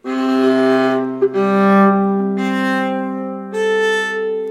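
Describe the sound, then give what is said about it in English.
Bowed fiddle strings, the four playing strings of an instrument that also carries sympathetic strings, sounding as four long sustained notes one after another, each rich and resonant with short gaps between bow strokes. “There are four playing strings, which sound like this.”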